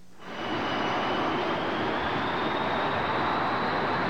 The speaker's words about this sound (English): My God, you should see this. This is awful. It's like a tornado. The ground shakes when it's a large aircraft.